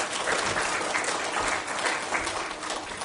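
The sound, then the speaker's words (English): An audience at a Christmas gathering applauds a visitor with brisk, continuous clapping that holds at a fairly even level throughout the short burst. “And so let's give her a hand, y'all.”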